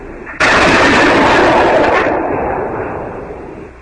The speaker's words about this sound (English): That was me firing. I got a rifle.